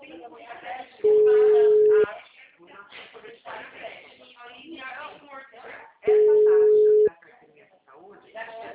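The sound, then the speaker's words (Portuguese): A telephone tone after a dropped call sounds as two steady, mid-pitched beeps about one second long, spaced roughly five seconds apart, over continuous talking. “Caiu a ligação aqui, desculpa, tá bom?”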